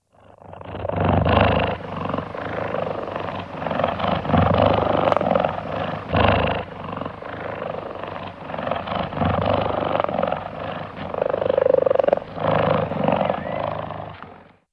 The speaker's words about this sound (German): Ist er entspannt, dann schnurrt er, laut und tief. Das klingt so.